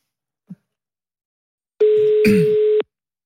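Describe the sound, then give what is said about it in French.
Telephone ringback tone on an outgoing call: a single steady buzzing tone about one second long, preceded by a faint brief click, with a short rough noise over its middle. “Est-ce que ça sonne chez Yanis? Sonne.”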